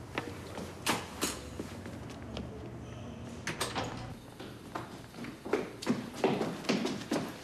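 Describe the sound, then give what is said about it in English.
Hurried footsteps pound up a staircase as two people race each other: a rapid run of many thudding, clattering steps that grows louder and denser toward the end. “I wanna check this out, too. Race you up the stairs.”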